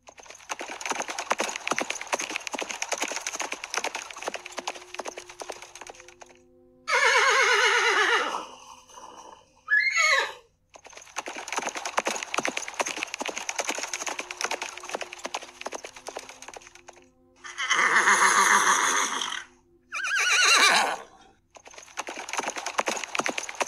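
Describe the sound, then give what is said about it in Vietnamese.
A herd of captured warhorses, in mixed black, white and yellow coats, neigh noisily while cavalry drive them forward. Four loud, shrill whinnies break out over a steady background clatter. “Lời vừa phát ra, liền nghe phía sau một trận ngựa hí ồn ào.”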